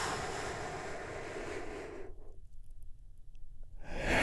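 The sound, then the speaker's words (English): A deep breath is drawn in during a guided relaxation exercise, a long, soft, airy hiss lasting about two seconds. Near quiet follows, and a fresh rush of breath rises at the very end. “take another big, deep, healing breath with me right now. Here we go. And”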